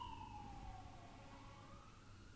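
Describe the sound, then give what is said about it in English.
A siren wails outside, its tone sliding steadily downward and then edging back up slightly, faint over a low rumble with no voices. “As fast as that siren outside.”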